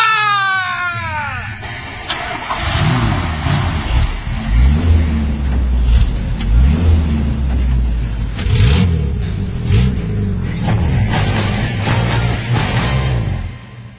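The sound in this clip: Car engines revving in a rush-hour street race through an undersea harbour tunnel: a loud, continuous roar that keeps wavering up and down in pitch as the engines rev.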